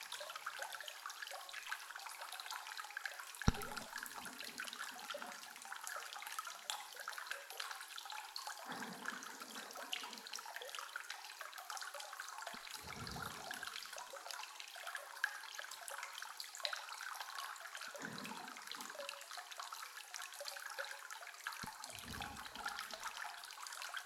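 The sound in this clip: Hot spring bath water runs in a steady, continuous hissing flow, with occasional brief low gurgles and splashes breaking through the constant rush.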